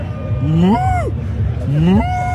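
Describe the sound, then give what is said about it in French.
A human voice imitates a calf mooing at an agricultural fair, giving two drawn-out, wavering moos that rise and then fall in pitch, with steady background noise between them. “Ça, c'était le veau, mais sous alcool, les gars, je crois.”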